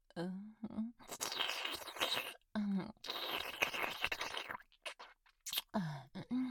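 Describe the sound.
Loud, crunchy chewing and biting in several bursts, broken by short stretches of soft speech between the bites.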